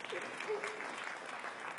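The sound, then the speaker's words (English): A church audience applauds with steady, moderately quiet clapping, and a voice is briefly heard over it. “Yeah, you should clap for that.”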